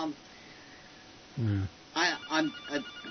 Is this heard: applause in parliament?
no